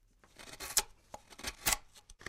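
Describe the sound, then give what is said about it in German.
Knife carving wood as a small figure is whittled outside on steps: a few dry scraping and cutting strokes of uneven loudness, with several sharper bursts and no voices. “Richard sitzt draußen auf der Treppe und schnitzt”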